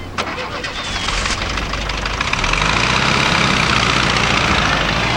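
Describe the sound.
A car engine roars as the vehicle drives off, a steady broad rumble that grows louder partway through, with a brief sharp sound near the start.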